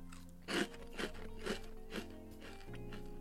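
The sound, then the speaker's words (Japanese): Crunchy bites into spicy fried squid sticks: four crisp crunches spaced about half a second apart, soft and quiet, each a short brittle crackle. “イカもサクサク。うん。もう一個ちょっといただきます”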